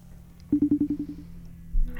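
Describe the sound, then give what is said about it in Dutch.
A phone call being dialed and ringing: a quick run of short, low electronic pulses that fades away, then a brief louder burst at the end. “Ik ga Julia bellen.”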